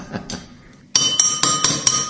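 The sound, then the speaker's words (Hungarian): Tapping on the side of drinking glasses filled with a carbonated drink: a couple of soft taps, then five bright, ringing clinks in an even rhythm. “akkor megindul a szénsav felszabadulása. Tehát gyakorlatilag elég jól bírják a poharak az ütögetést.”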